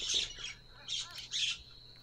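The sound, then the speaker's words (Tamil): Myna bird calls: a few harsh, raspy squawks in short bursts, faint and heard alone. “மைனா. சுட்டித்தனம், கூச்சல் மற்றும் நளினமான அசைவுகளால் அடையாளப்படுத்தப்படுகிறது.”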